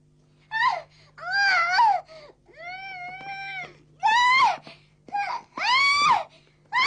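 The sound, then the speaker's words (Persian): A little girl screaming and crying in a series of high, wailing bursts that bend up and down in pitch, separated by short gasping pauses. “حالا هر چقدر دلت میخواد جیغ بکش خانم کوچولو”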